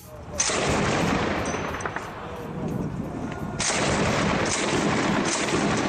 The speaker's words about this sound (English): That's the sound of rebels firing anti-aircraft artillery into the air in Aleppo.